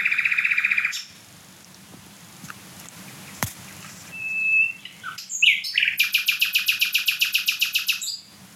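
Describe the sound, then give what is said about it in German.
A songbird smaller than a blackbird sings very loudly, alone. A high buzzy trill is followed by a pause and a brief pure whistle, then a long run of many rapid, sharp repeated notes that ends abruptly. “Und ich meine, der Vogel ist kleiner als eine Amsel. Das ist, auch wenn jetzt kein anderer Vogel singt und so weiter, mega laut trotzdem.”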